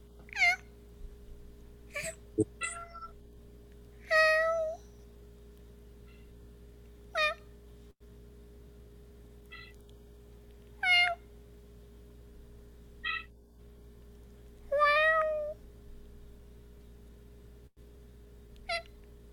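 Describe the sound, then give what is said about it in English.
Cat meowing: many short, fairly faint meows scattered irregularly, some rising and falling in pitch, over a constant low electrical hum. “Did I hear a Pranfunkel's kitty cat? Yeah, I believe you did.”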